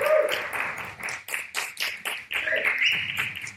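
A live comedy audience in London claps in uneven bursts to welcome two comedians to the stage, loud and lively throughout.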